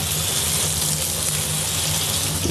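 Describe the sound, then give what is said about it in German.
Water running from a kitchen tap in a small kitchen, a steady loud rushing hiss that holds unchanged from start to end with no talk. “ein bisschen Wasserrauschen”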